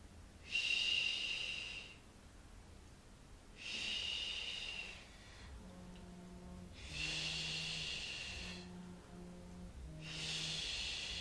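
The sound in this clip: Airy exhalations during a guided breathing exercise, four soft hissing breaths spaced a few seconds apart, each swelling and fading, quiet throughout with faint low sounds between them.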